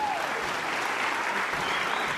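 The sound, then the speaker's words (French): Dense applause from an audience after a performance, a steady wash of clapping that holds at an even level throughout, with no voices rising above it. “Miss Liégeois se surpassa pour coordonner ses mouvements et fut applaudi”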